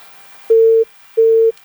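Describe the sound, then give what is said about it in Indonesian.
A phone line's busy tone after a call disconnects: two identical steady mid-pitched beeps, each about a third of a second long, separated by a short silence. The beeps are loud and clean, with no voices. “Terputus lagi. Jadi kita angkat lagi di telepon WhatsApp ya sahabat budaya, karena tadi di telepon biasa terputus.”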